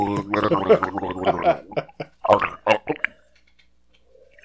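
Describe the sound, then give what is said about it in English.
A voice imitates a bubbly gargle, like a clogged drain finally emptying, with a run of voiced gurgling bursts that break into several short, choppy sputters before dying away. “it's going to sound, you know, like a gargle fest down there. It's like a clogged drain finally emptying.”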